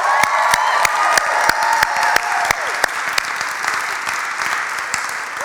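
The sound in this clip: A church audience applauds an intern's seminary graduation with dense, steady clapping at an even loudness and a few sharper claps standing out.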